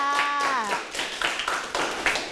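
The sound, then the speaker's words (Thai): A class applauds a classmate in a Thai school lesson. After a brief voice, many hands break into a quick, scattered burst of clapping that carries on to the end. “ปรบมือให้เพื่อนค่ะ”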